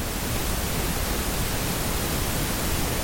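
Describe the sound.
A pink noise test signal gives a steady, even hiss with a fuller low end than white noise. It holds at constant loudness without change for about three seconds.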